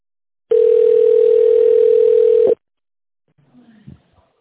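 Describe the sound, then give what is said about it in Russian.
A steady telephone beep tone signals the start of a voicemail recording, one unbroken mid-pitched tone lasting about two seconds and ending abruptly, followed after a pause by faint soft sounds. “Также можете оставить голосовое сообщение после звукового сигнала.”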